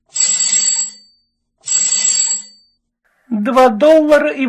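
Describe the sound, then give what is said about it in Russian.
A telephone rings in two bright, trilling bursts separated by a short silence, then a person starts talking. “Телефон немедленно зазвонил.”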